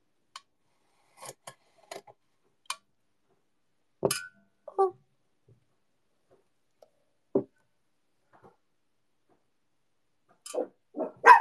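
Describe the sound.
Dogs bark in a few short, sharp bursts, spread out between stretches of silence. The barks are faint, with small clicks and ticks scattered among them and a cluster of barks near the end.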